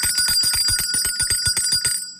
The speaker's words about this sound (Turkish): Şişelerimiz, bardaklarımız hazırsa işte o zil sesi.